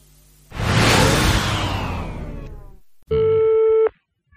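A telephone rings as a radio station calls a listener: a long rushing whoosh fades out, then a single steady electronic ring tone sounds briefly and cuts off.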